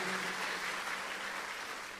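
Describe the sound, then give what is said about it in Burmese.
A church audience applauding during a service: dense, steady clapping sustained for about two seconds, with no voices rising above it. “ယေရှုကိုလက်ခုပ်တီးလက်ကုံပြုကြရအောင်”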